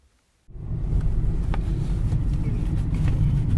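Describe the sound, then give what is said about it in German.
A car drives along the edge of the southern Harz on a sunny March day, past snowmelt-dotted fields: a steady, loud low rumble of engine and road noise that cuts in abruptly after a short silence and holds constant. “Mit dem Auto unterwegs am Rand des Südharzes.”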